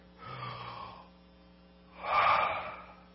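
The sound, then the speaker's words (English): A deep breath drawn in and then let out, heard as two soft breathy rushes of air separated by a short pause, the second one louder and fuller, with no talk. “I want everybody to take a big breath in and breath out.”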